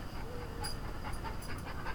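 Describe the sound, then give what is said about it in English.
Dog panting: soft, quick breaths in a steady, rapid rhythm, faint and heard alone with no talk. “He's a beautiful dog. Look at this. Look at this boy. Here comes the boy.”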